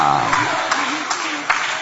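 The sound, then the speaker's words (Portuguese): A church audience applauding, a steady wash of clapping with a few sharper claps, while a voice speaks over it. “Aplaude a Ele, que Ele já está revelando. Aplaude a Ele, que Ele já está falando aqui conosco.”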